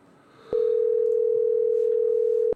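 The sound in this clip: A telephone ringing tone sounds as a single steady, mid-pitched electronic beep lasting about two seconds, loud and clean, cutting in and out abruptly over faint background hiss.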